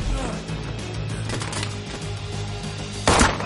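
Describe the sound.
Gunfire in the action film John Wick: Chapter 2 (2017) as John guns down several men: a few sharp shots crack over a dense soundtrack, and the loudest burst comes near the end.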